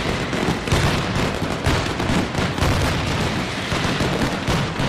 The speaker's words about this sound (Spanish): Sonido en directo a esta hora que nos llega desde allí, desde Valencia, con la mascletá de más cantidad de pólvora que se dispara de todas las fallas.